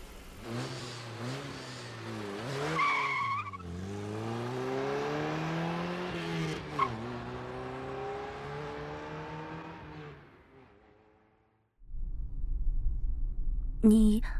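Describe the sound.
A sports car engine revs hard as the car drives off, its drone climbing in pitch through several rising sweeps. The sound fades to near silence, then a short burst of broad noise follows.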